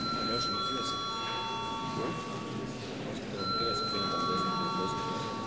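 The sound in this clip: Electric bell rung in a parliament chamber, two sustained ringing tones separated by a short pause, fairly faint over a background murmur of voices.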